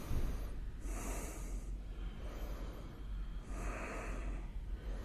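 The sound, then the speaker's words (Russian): Slow, deep breathing during a yoga stretch, with two long airy breaths rising out of a steady low background hiss, each drawn-out and soft, heard alone without talk. “И дышим здесь. Висим, отдыхаем, дышим.”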